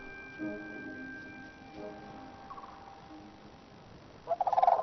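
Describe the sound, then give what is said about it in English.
Sandhill cranes calling on Arctic tundra after migrating from New Mexico: faint tonal calls early on, then a loud, rolling, rattling call bursts out near the end. “Sandhill cranes have travelled all the way from New Mexico.”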